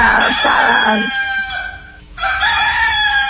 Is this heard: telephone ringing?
no